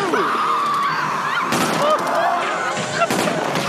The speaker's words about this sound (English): It's a good thing he has unlimited ammo. Oh, he's double tapping that shit